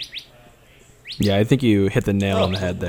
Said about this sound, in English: There's a little bird chirping on.